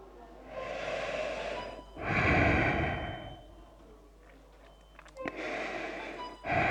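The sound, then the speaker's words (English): Heavy, close breathing inside a protective suit and visor: a few loud, rushing inhales and exhales in a slow, uneven rhythm. “All I hear is my breath, feel my breath on my face.”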